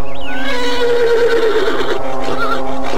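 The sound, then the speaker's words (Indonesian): A white horse neighs in a loud, prolonged whinny with a quavering, wavering pitch that fills the whole clip. “Kuda putih itu meringkik”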